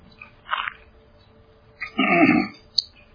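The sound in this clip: A person clears their throat with a brief rasp and then a longer, louder gravelly clearing, followed by a short click, against an otherwise quiet background.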